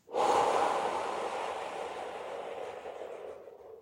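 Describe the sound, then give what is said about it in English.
Deep breathing during a guided relaxation: one long, airy breath that rises quickly and then slowly fades over a few seconds, heard alone without talk. “Last one, breathing in, all the way out.”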